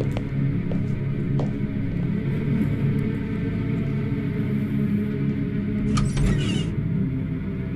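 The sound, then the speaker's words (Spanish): A side door of a mansion opens with a low mechanical creak over a steady rumbling background, and a short, brighter burst comes near the end. “vaya abriendo la puerta del lateral”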